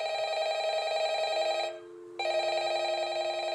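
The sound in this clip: A telephone rings with a steady, loud electronic tone in long bursts, broken by one brief pause partway through, with no voices.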